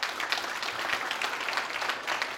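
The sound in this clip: A church audience applauds to welcome guests, with steady, moderately quiet clapping that continues evenly throughout without any speech.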